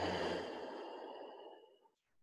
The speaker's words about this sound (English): Breathe in, empty out,